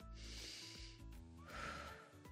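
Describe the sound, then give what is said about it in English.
A slow, calming breath taken during a soothing exercise for children: a long, soft airy inhale, a brief pause, then a gentle, slightly fuller exhale, steady and unhurried. “every time you take a breath like this”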